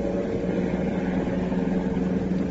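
Continuous engine hum of a car being driven, a low, even rumble with a steady mid-range drone and no voices.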